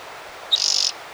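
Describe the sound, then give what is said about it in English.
A single bird calls outside: a short sharp note leads straight into a rapid, buzzy high trill lasting about a third of a second, standing alone over a faint, even background. “Maybe two birds out there. Eight. Nine. No, one bird.”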